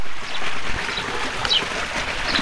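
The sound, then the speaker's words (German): Streams babble through a cool valley at the foot of snow-capped mountains in Morocco's Valley of Roses, southeast of the High Atlas. The water makes a steady, moderately loud rushing and trickling hiss with no talk. “Am Fuß schneebedeckter Berge plätschern Bäche durch das kühle Tal.”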